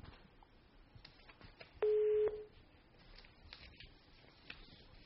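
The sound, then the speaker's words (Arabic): A steady telephone line tone sounds on a call-in line from Algeria after the call drops. It is a single loud, even, mid-pitched beep of about half a second, standing out over faint background hiss. “فقدنا الاتصال أبو شعيب، لعله يعاود الاتصال بحول الله”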